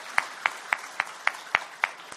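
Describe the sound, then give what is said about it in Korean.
Rhythmic clapping at a church gathering honoring young volunteers back from a mission trip: eight evenly spaced, sharp claps at a steady beat, moderately quiet against a faint background hiss. “수고한 청년들 위해 박수를 한번 격려하겠습니다.”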